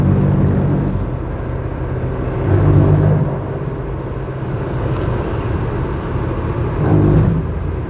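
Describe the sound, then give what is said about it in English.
A car accelerates to pass another car during a drive to or from work: a steady low engine and road rumble that swells briefly twice as it picks up speed. No one talks. “Sorry, I had to pass. Like I said, these drive time episodes are filmed while I'm driving to or from work, so. Yeah, so sorry about that, but yeah, I had to pass lanes,”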